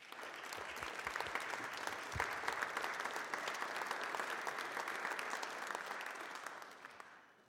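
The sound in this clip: Applause from a legislative chamber floor session welcoming visiting broadcasters: a dense, steady burst of clapping that builds quickly, holds, and tapers off at the end.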